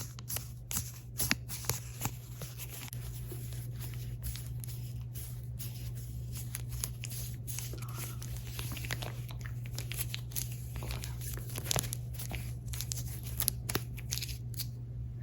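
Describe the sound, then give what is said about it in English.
Parchment paper crinkles and rustles as it is handled, giving many sharp, irregular crackles over a steady low hum. “It's kind of a unique paper parchment.”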